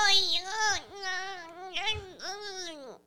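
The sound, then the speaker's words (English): A voice imitates a baby crying with a few wavering, high-pitched wails that rise and fall, each one breaking off before the next begins. “Do you want to do that baby noise you were doing earlier?”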